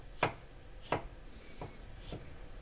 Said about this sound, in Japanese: 薄くスライスしたニンニク、生姜を端から細切りにしていきます。